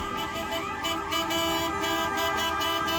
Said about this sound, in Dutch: Vanochtend reden ze in een optocht toeterend bij het bedrijf langs.